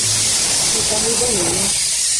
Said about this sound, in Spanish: Así suena una de las ollas a presión